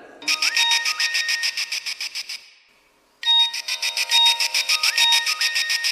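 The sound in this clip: An electronic phone ringtone sounds as a call is placed, with rapid, bright pulsing tones in a repeating pattern. Two loud bursts of ringing are separated by a short silent pause.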